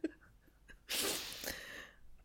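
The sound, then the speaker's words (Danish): A sudden human sneeze: one sharp, breathy burst of noise that trails off over about a second. It is fairly quiet and stands alone without talk. “Jeg ved ikke lige, hvad der skete der. Jeg nøs meget pludseligt.”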